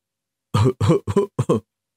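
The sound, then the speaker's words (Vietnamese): A man coughs lightly, giving a few short, quick throat-clearing coughs in close succession. The coughs are moderately loud and heard alone, with no talk. “Tổng thống Mỹ quốc ho nhẹ một tiếng, lúc này mọi người mới ngừng lại việc trao đổi.”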